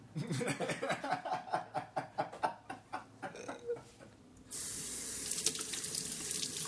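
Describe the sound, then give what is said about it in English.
Dishes are washed up at a sink: rhythmic sloshing and light clinks in the water for several seconds, then the tap runs in a steady, bright hiss to the end. “Oh, I guess I'll do the washing up then, shall I?”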